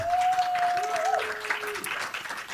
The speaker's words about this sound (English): Please put your hands together and welcome to You Made Me Queer, Natasha Negovalis.